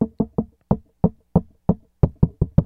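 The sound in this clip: Knuckles knock out a rock drum beat on a school desk: eleven sharp, dry woody raps in a syncopated pattern, some in quick pairs and triplets, others evenly spaced, with no talk over them.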